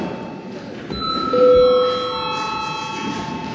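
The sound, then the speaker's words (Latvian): Electronic bell ringing in a parliament chamber to call a break, a sustained steady chime of several held pitches that starts about a second in and carries on to the end, louder in the middle, over a low background hum. “Lūdzu zvanu”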